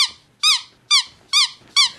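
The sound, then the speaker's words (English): Five loud, high, bright squeaks from Sweep, the glove puppet from the Sooty show, each short and evenly spaced, heard alone. “And in the blue corner, all the way from a cupboard at the BBC. Or Matthew Corbett's fist. Whichever. We have Sweep!”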